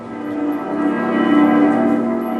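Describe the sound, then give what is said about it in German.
Cologne Cathedral's bells ring before the Bundestag morning devotion in a loud, sustained, humming wash of overlapping tones. The sound swells slightly midway and holds steady, with no voices. “Und was ist das jetzt? Das sind die Glocken des Kölner Doms.”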